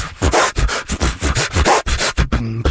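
A human beatboxer vocally imitates a turntable scratch with rapid, rhythmic, breathy scratching bursts that repeat without pause, ending on a short voiced tone.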